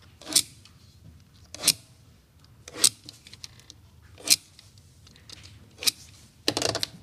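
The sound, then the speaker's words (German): Protective foil is cut and applied to a library book with quick, sharp snips and crackles, a few crisp bursts at irregular intervals over faint handling rustle, ending in a quick cluster of cuts. “stattet eine Kollegin mit geschickten Handgriffen und schnellen Schnitten ein Buch mit der Schutzfolie aus”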